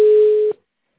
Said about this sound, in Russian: Не берет трубку. Вызываемый абонент не отвечает.